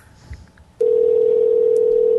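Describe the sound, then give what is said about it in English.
Telephone ringing tone as heard on a caller's line: after a short stretch of faint noise, a single loud, steady electronic tone starts and holds at one even pitch to the end. “So his phone was ringing somewhere.”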